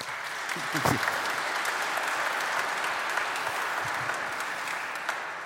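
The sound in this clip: Applause from a church audience welcoming members of the Church of Jesus Christ of Latter-day Saints: a dense, even wash of many hands clapping that holds steady throughout, with a few faint voices mixed in.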